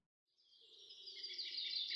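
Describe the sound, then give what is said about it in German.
Morning birdsong in a mountain setting: faint, high, continuous twittering fades in from silence and swells steadily over two seconds, with a weaker lower tone beneath. “Es ist Morgen. Die Vögel zwitschern.”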